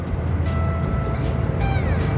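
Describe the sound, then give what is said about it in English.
Deep engine rumble from one truck passing another on a long highway drive, a steady low drone carrying a faint tonal whine that holds through the whole stretch. “We've got a little truck-on-truck action here. It's going on. It's happening,”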